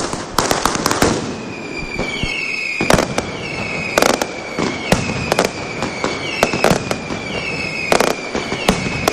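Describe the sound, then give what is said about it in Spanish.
Mascletà firecracker barrage, with many sharp, loud bangs in rapid irregular succession, punctuated by heavier clustered blasts and threaded with thin whistling tones. “Faltan segundos para que ese ruido atronador lo inunde todo. Y ustedes también aquí en directo, ahí lo están escuchando.”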